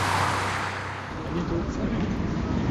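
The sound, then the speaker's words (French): Car carrying a minister speeds off toward the train station, a continuous loud roar of engine and road noise sustained at an even level throughout. “Voilà le bruit que ça fait un ministre qui rejoint sa gare. Je ne suis pas sûr que les limitations de vitesse seront respectées.”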